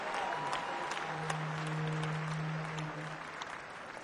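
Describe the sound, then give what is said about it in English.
Audience applause fills the whole stretch as a dense, steady roar of many hands clapping, holding loud and even before easing slightly toward the end. “So give yourself a round. A round of applause for a quick”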